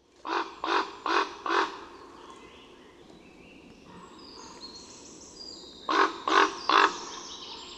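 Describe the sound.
Harsh croaking calls of a carrion-feeding bird in a field recording: four quick calls in a row, a quiet stretch, then three more, over a faint, soft background.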